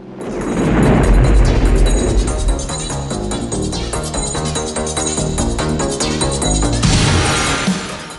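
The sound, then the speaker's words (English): A fishing boat explodes into a ball of fire with a heavy, deep boom. A loud, sustained roar with a low rumble builds quickly, holds for several seconds, and then drops away near the end. “He produces a remote switch with an aerial and presses a button. Bennett's fishing boat explodes into a ball of fire.”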